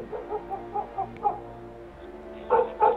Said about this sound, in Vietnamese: Gió nổi lên, ở bên kia tiếng chó sủa râm ran ầm ĩ cả một góc phố.